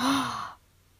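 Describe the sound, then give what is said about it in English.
A person takes a single deep breath in, a loud breathy rush lasting about half a second before falling quiet. “Take a deep breath in with me.”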